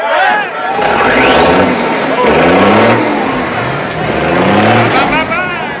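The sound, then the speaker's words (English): A convoy of army trucks carrying soldiers rolls past, a loud, continuous engine roar with shifting, sweeping pitch that swells and eases as the vehicles go by. “arms over the windshield, watching the trucks pass by”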